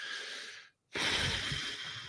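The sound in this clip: Deep breathing: two long, noisy breaths with a short silent pause between them, loud and breathy with no talking.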